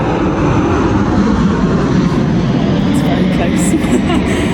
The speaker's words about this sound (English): apologies, there's something flying over.